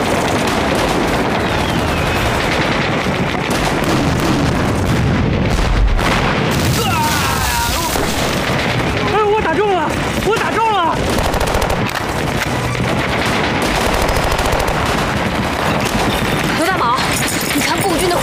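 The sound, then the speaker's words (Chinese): Artillery and gunfire fill a battle scene as Communist forces open up with heavy guns: dense, continuous rattling shots and deep booms throughout, with shouting voices mixed in. “共军采用大炮？ 共军还有大炮？”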